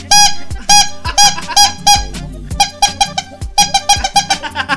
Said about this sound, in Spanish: Y tocando la trompeta,